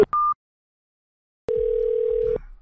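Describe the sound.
A telephone tone sounds after a call disconnects: a short, higher beep, a pause of silence, then a steady, lower electronic tone holding for almost a second before it cuts off.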